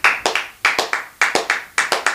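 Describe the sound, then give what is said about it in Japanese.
Hands clap in many sharp, crisp strikes that come in uneven bursts with short gaps between them, loud and alone. “結構一番でかい拍手してる今。”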